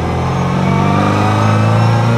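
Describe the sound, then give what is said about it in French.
A track-prepared 1967 Mini's engine, an old Austin-type car built for circuit racing, revs at a steady high speed of around 3000 rpm. It gives a loud, even, buzzing drone with a slight rapid pulse, and nothing else is heard. “C'est une voiture qui est faite, qui a été préparée pour les circuits. Donc il faut qu'elle tourne toujours à un régime d'environ 3000 tours pour avoir de la”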